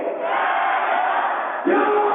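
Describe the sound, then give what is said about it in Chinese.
A stadium crowd roars and cheers for the Beijing BAIC women's volleyball team during a five-set match against Shanghai. The sound is a steady, thin, muffled roar that surges louder near the end. “大家也能可以听到这个全场的观众为北京汽车女排这个在加油啊”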